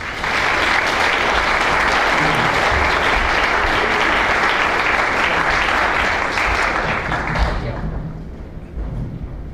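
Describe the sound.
An audience applauds to welcome guests, including senators, at a public event. Many hands clap in a loud, even wash that holds steady for about seven seconds, then thins and fades out.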